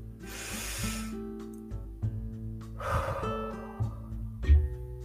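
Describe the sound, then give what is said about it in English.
Slow, deep breaths in and out, two long airy rushes of air over a soft, sustained musical drone. “literally feel your lungs fill with air slowly and release”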